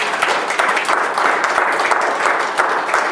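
Audience applause at a church service: dense, sustained clapping from many hands, loud and even from start to finish, with no voices on top.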